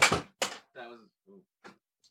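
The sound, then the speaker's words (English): An unlit candle gets knocked over on a desk while it is being cleared, giving two quick, loud clattering knocks that are followed by a few short, softer voiced sounds. “That was me. In an effort to clean the desk off and clear space for the keyboard, I knocked over the candle that wasn't lit.”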